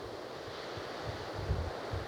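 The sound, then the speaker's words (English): Strong wind blows through pines and oaks as a steady broad roar, with soft low buffeting thumps against the microphone that swell a little toward the end. “The wind is blowing very strongly.”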